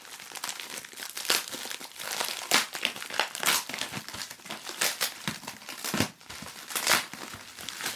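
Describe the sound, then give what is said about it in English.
Paper crinkles and crunches as an envelope is opened, a run of many irregular rustling bursts of varying loudness that continue throughout with no voices. “Okay, what's in this envelope?”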